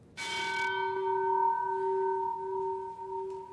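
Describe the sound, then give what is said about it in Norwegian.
The ship's bell of the old Hurtigruten ship Finnmarken, hanging in a foyer, is struck once and rings on with a clear, steady tone that lingers for several seconds. “Er det en ekte skipsklokke du har her også? Ja, det her er klokka til gamle Finnmarken. Som eh, henger her i foajeen i Hurtigrutens hus.”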